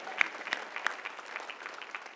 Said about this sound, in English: That's a good place to clap, too.